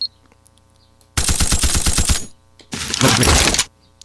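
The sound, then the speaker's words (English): Automatic fire from an M60 machine gun in a video game: two long, loud bursts of rapid shots separated by a brief pause, with quiet background between them. “M60 equipped, add 100 rounds. Now we have our M60.”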